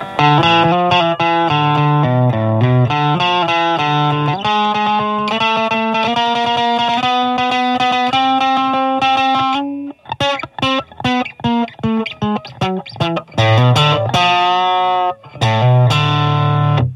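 Electric guitar played through a Tech21 Fly Rig 5 version 1 on its plexi side, with brightness fully up and the drive turned up. Loud, distorted chords ring and sustain, then give way to fast, choppy strummed chords.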